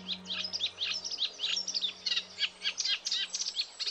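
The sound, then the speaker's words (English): A male reed warbler sings his territorial song from a reed bed along a lode: rapid, chattering chirps repeated in quick bursts without pause, bright and high, over a steady low hum. “Nick has spotted the first reed warblers of the season. As soon as they arrive, they busily set up territories in reed beds along the lode, and each male proclaims his territory with a striking song.”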